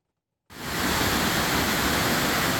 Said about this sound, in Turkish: Kırşehir'in Akpınar ilçesinde kuraklık nedeniyle 7 yıldır akmayan Kanlıgöl Şelalesi bu yıl yurt genelinde etkili olan yağışların etkisiyle yeniden çağlamaya başladı. İşte o görüntüler.